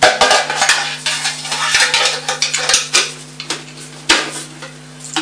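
Pots, pans and utensils clatter during cooking, with many sharp metallic clinks and knocks in an irregular rhythm over a steady low hum.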